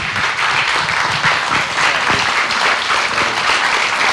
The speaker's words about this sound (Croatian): Evo, plješćemo.